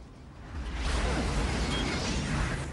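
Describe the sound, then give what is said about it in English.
Violent dust cloud full of flying detritus rushing past: a loud, rough wind roar swells within half a second and holds steady and broad to the end. “He clings on as the violent dust cloud batters him. Detritus whips past his head as he holds onto the post.”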